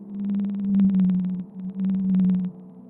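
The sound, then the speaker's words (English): A Northeastern Pacific blue whale call, recorded by hydrophone and sped up ten times, sounds as a steady low droning hum overlaid with rapid pulsing, split into two long units by a short break. “hydrophones, or underwater microphones, must be sped up 10 times because the frequency is too low for the human range of hearing. This is the call of the Northeastern Pacific blue whale.”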